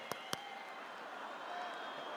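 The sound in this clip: A man claps his hands twice, two sharp, quick smacks at the start. A steady murmur of voices continues under and after them.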